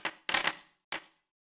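Dice clatter across a table during a tabletop role-playing game roll against a difficulty check. A few bright, rattling bursts sound, with a longer tumbling clatter in the middle, then a final short rattle before silence.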